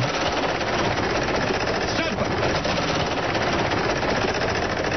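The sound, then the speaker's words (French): A game-show prize wheel spins with a rapid, unbroken rattle of clicks, loud and steady from start to finish. “D'abord, tu fais tourner la roue.”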